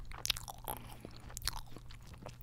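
Crunchy chewing of Colombian snacks: sharp crackling bites followed by softer chewing, with a few distinct crisp bursts over a short stretch.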